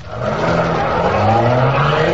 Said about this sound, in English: I'll kill you if you don't give this car all it's got.